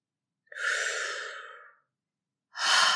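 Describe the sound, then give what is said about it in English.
A person takes a slow, soft breath lasting over a second and fading out. After a brief silence, another breathy rush begins. No words are spoken. “Let's just take a breath. Stop. Pause. Be.”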